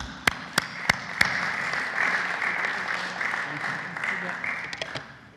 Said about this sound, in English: let's all put our hands together and make a big, warm welcome